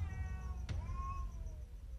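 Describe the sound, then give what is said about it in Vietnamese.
A stray cat gives a drawn-out, wavering meow with a sharp onset, then a long sustained tone over a steady low rumble, loud and with no voices. “không biết con mèo điên này vô tình vào nhà mình, rồi tại sao lại trông có bộ dáng kỳ quái như thế”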